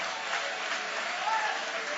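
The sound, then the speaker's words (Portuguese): Church audience applauding during a service, a continuous, even patter of many hands clapping at moderate volume. “pode guardar a Bíblia e podem aplaudir, podem louvar, podem exaltar.”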